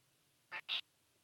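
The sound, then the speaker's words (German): A tomcat complains with two short, nasal meow-like calls in quick succession, the second louder and slightly longer, faint against a quiet background. “jetzt kommt der Kater und meckert rum.”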